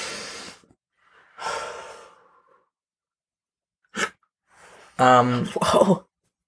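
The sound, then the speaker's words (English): A deep breath is drawn in to calm stress. A few loud, breathy bursts of air are separated by pauses, and a short voiced sound follows at the end. “Sorry, we did get so sidetracked, and I'm like, breathe in.”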